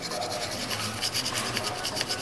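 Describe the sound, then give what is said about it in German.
A tool scrapes the edges of freshly laid gold leaf smooth on an ornate frame during restoration. The sound is a quiet, continuous, scratchy rasp with soft repeated strokes and no talk. “Danach schabt sie die Kanten des wertvollen Materials glatt.”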